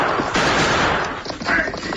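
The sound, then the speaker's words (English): Gunfire from an escaped convict's gun as he drives a wagon jouncing over rocky ground on a trail: a dense, loud burst of shots that blur together into continuous crackling noise, too close together to count. “The frightened killer opened fire.”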